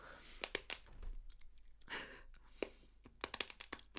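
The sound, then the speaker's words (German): Noodles crunch while being eaten, heard as faint, irregular crisp clicks and chewing noises with soft breaths in between. “Boah, ich glaube, glaub, das ist richtig unangenehm, dieses Nudelcrunchen jetzt auf der Tonspur.”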